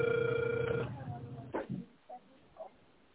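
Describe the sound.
Telephone ringback tone while a call connects: one steady, narrow-band tone that stops abruptly, followed by a few soft clicks and faint line noise.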